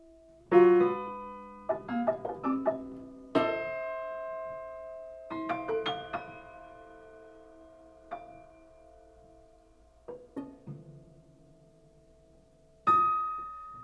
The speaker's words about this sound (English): In this work, the sounds you are hearing are created by a single instrument, the piano, but a piano that is what we call prepared.